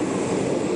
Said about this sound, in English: That's the sound of engines on his jet as his plane leaves the airport in Santiago, Cuba earlier today.